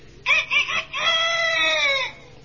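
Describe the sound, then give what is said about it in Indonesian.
A bantam rooster crows once, loud and alone: three short choppy opening notes, then a long, sustained, harmonic-rich note that holds steady before stopping. “Dan terakhir, ayam kate.”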